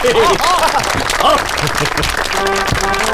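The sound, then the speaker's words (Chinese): Applause welcoming a newly appointed security platoon leader at a ceremony: steady, dense clapping that lasts throughout, with voices talking over it. “掌声欢迎”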